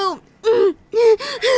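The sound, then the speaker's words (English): Heavy, voiced panting of someone out of breath after pushing hard on a running track: five breathy gasps in an uneven rhythm, fairly loud. “I've been really pushing myself, so I'm a little out of breath.”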